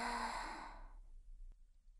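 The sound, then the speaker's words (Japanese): A long, sighing out-breath from a person in a relaxation exercise, already underway at the start, airy and soft, tapering off gradually over about a second into near silence. “最後、吸って、これから起こる期待が膨らんでいく。吐いて、”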